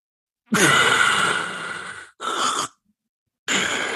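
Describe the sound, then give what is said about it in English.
A voice imitates the choking and gasping of sleep apnea, where the tongue falls back into the throat: three harsh, breathy bursts separated by silence. The first is long, the second short, and the third is cut off at the end. “Sleep apnea is when the tongue falls back into the throat and you go,”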